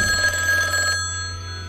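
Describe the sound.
Telephone ringing with an incoming call: one short burst of trilling bell rings that stops just before the midpoint, its tone fading away over a steady low hum.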